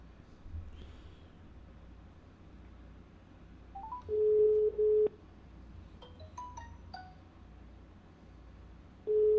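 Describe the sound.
Telephone call tones on a line being dialed: a steady mid-pitched tone, then a quick run of keypad dialing beeps, then the same steady tone starting again at the end, over faint background hum.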